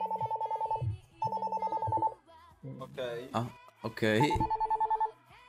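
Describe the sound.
A telephone rings in three trilling bursts of a rapid, mid-pitched bell, with a voice talking briefly between the second and third bursts.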